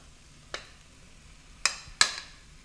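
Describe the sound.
Bratwurst sausages dropped into a pan of Brussels sprouts after the heat is turned off: three soft, separate thuds, the last two close together, over a quiet background.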